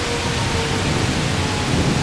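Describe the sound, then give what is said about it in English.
Heavy thunderstorm rain pours in a dense, steady, loud hiss with a deep low rumble underneath, unbroken throughout with no talk. “So, I mean, it's still a pretty heavy thunderstorm.”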